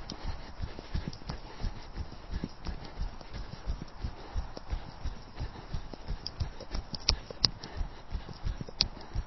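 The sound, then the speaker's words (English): Running footsteps of a jogger on a track, rounding a bend on tired legs, fall in a steady, even rhythm of many soft thuds at a moderate level throughout. “to just jog round the bend until I'm onto the back straight.”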